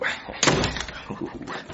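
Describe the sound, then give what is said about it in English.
A door is shut and locked at home: one solid, loud thump followed by several fainter clicks and rattles. “All right. The door's locked.”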